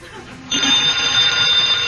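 A telephone bell rings continuously after half a second of faint background noise. The ring is a steady, bright, high-pitched tone that holds loud and unbroken to the end.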